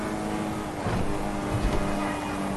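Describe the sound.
A car engine drones as a player drives in first person in Grand Theft Auto roleplay, a steady low rumble that swells slightly partway through, with no talk.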